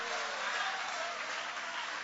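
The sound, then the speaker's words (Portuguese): Congregation applause in a church service, a dense, even wash of many hands clapping at a fairly soft level, holding steady throughout without a clear start or stop. “Aplaude a Ele, aleluia!”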